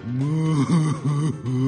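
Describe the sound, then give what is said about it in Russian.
A narrator's voice imitates a draft horse crying: four drawn-out, wavering sobbing moans in quick succession, voiced and fairly loud, with no words. “Поскакал кабачок дальше и видит, тяжеловоз Руслан стоит и плачет.”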